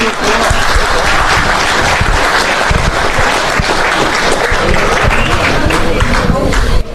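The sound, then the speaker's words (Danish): Loud, dense applause from an audience for the prize winners of a distance competition between political party teams, who received a three-month fitness card. The clapping stays steady and continuous from start to finish, with no pause or fade. “Så tillykke med det, og så glæder vi os til at se jer i en helt anden form næste år. Giv dem en hånd.”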